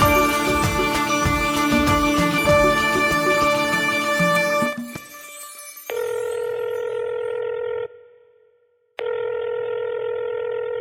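A telephone call begins with a fast run of touch-tone dialing beeps, then the ringback tone sounds in two long, steady bursts separated by a silent gap.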